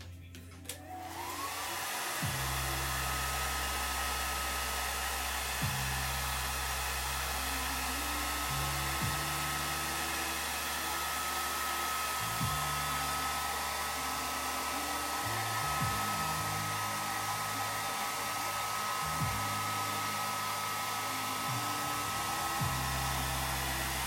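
A hair dryer drying hair gives a loud, steady whir that runs the whole time with no pause. Its low motor hum shifts in small steps as the airflow changes.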